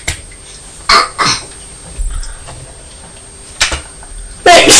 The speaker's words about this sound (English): Sneezed again.